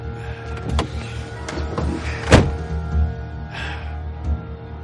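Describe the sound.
A chauffeur opening a rear car door as passengers get in: a few small mechanical clicks and one sharper thud near the middle over a low steady hum.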